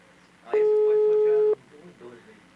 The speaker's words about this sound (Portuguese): Não tá atendendo. Mas tá chamando.